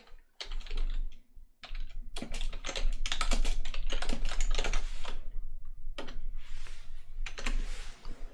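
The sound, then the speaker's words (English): Rapid typing on a computer keyboard to enter a chat message: many crisp plastic key clicks in quick, uneven bursts, fairly loud and continuous with brief pauses, and no talk. “Let me type something in the chat real quick.”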